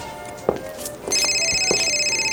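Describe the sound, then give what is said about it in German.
A telephone rings with a steady, high electronic tone that starts about halfway through and holds to the end, after a few soft thumps earlier on. “Telefon! Das ist meins.”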